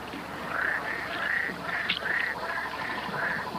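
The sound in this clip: Frogs croak in a chorus of many short, reedy calls that repeat in a fairly steady rhythm over a constant hissing background, with no voices.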